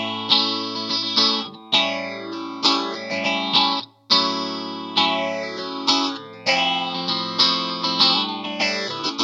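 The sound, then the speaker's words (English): Electric guitar played with the pickup selector in the middle position, combining two single coils. Sustained, harmonically rich chords and ringing notes are struck repeatedly, with a sweeping, swirling modulation effect and distortion running through the playing. “If I want to go in the middle, two single coils.”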